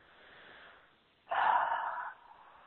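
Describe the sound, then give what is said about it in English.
A group breathing in deeply together during a spiritual healing session: a single long, airy inhalation rushes up after a faint earlier breath, holds for under a second, then drops away. “Now, everybody take a big breath in, because it's a lot of information that Metatron is bringing through.”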